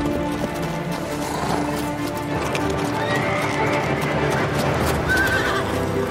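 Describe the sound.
Horses being ridden by a group of men, steady clip-clop of many hooves throughout, with a horse whinnying over the continuous hoofbeats.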